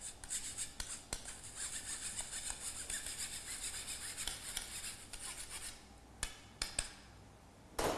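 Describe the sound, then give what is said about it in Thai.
A spoon presses and scrapes lumps of flour smooth, making a steady, rasping scrape for about five seconds. A few sharp knocks with short pauses follow. Nobody speaks. “ก็จะใช้ช้อนกดลงไปหน่อยครับให้ละเอียดมากที่สุดนะครับ”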